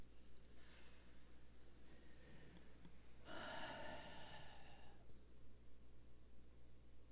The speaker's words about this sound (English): Everybody look at me. And take a nice deep breath on this.